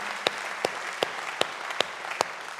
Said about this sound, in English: Come on, church, let's put our hands together. Welcome each other today.